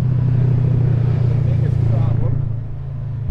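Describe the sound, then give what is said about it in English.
A UTV with deep-tread tires drives past on a road, a loud, steady low engine drone and rumble that eases slightly toward the end. “you could hear the difference between a normal vehicle and the UTVs. There's one there.”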